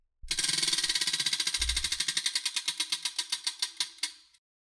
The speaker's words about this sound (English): Now you get to spin the wheel of games. Yay! All right, give it a nice big spin.